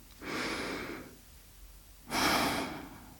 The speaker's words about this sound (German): schließe bitte die Augen und atme einmal tief durch